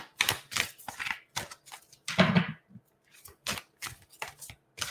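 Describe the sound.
Deck of cards handled at a desk, cards slipping out of the hand: many short, crisp papery flicks and riffles in an irregular run, with a denser, louder cluster near the middle and no talk.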